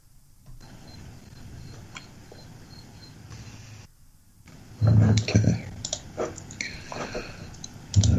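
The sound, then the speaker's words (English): Clicking taps on computer keyboards as players type during an online board game: a steady patter of light keystrokes, with voices talking over the louder later part. “Okay, so you guys are still tapping away, I can hear.”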